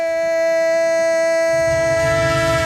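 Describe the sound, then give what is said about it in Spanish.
A train horn sound effect opens a radio sports jingle with a loud, sustained multi-tone horn chord held throughout. Low rumbling train noise builds under it partway through. “¡El tren de Radio Estadio! El tren de la pura competición”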